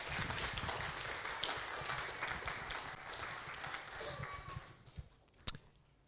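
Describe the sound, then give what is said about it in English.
Audience applause at a church gathering greets an Aboriginal elder as he walks up to speak. Steady, moderately loud clapping runs for about five seconds, then thins out and fades, ending with a few scattered thumps. “And so let's give him a hand as he comes up.”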